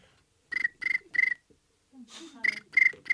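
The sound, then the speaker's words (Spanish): A cricket chirping at night in the desert. Six bright, high, pulsed chirps come in two groups of three, with a short low murmur in the gap between the groups. “Es un grillo.”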